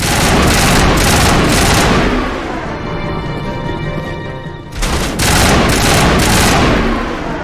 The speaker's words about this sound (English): We got 2,500 space gold for shooting that guard.